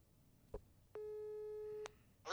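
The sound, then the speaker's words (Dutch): A single steady telephone call tone sounds for about a second while someone is being phoned, preceded by a short click and followed by a brief burst of noise. “Dus we gaan er eens eventjes bellen, ja?”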